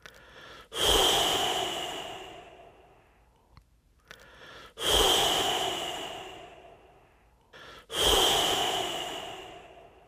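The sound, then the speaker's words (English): Three breathy, whooshing exhales through the mouth around the tongue during a breathing exercise. Each starts sharply and tapers off over about three seconds, with short quiet pauses between them. “the sound you're going to make when you exhale is a kind of whoosh”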